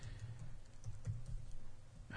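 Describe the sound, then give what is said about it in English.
Someone types a search on a computer keyboard, producing a quiet, steady run of many soft key taps with a brief louder sound at the end. “click on that and then type in Gurkha, spelled right”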